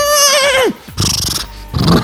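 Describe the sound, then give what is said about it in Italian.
A person imitates a horse neighing, playing a horse that refuses to set off: a wavering, quavering whinny that slides downward, then two rougher, breathy bursts. “Io sono il cavallo che non vuole partire. Faccio...”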